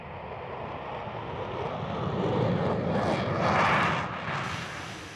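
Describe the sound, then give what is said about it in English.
Concorde supersonic jet airliner engines give a steady, broad roar that swells in the middle and then eases slightly, with no voices. “Thousands of miles away from its base, Concorde proved to be a reliable aircraft in all climates.”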